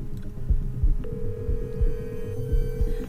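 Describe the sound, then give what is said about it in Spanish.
Ringback tone of an outgoing telephone call: after a second of low, throbbing background, a single steady mid-pitched tone begins and holds unchanged for about two seconds. “Vamos a hacer una llamada telefónica.”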